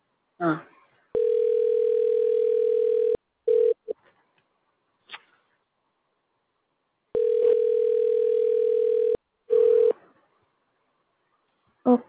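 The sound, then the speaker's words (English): A telephone ringing tone sounds as a call rings out: two long, steady, buzzing tones of about two seconds each, separated by silence. Short snippets of a voice and faint clicks come between them. “It's ringing.”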